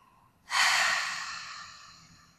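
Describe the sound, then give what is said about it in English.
One deep breath during a guided breathing exercise: a sudden airy rush that slowly fades as the air is released, faint and heard alone. “Big inhale. Big exhale. One more. Inhale, fill up. Exhale, release.”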